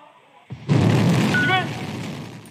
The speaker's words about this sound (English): A rocket blasted into orbit with three astronauts on board.